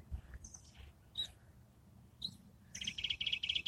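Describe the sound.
Songbird singing, an unusual species perched out of sight behind a bush: a few faint, brief high chirps spaced apart, then a rapid, sustained high trill of quick repeated notes to the end.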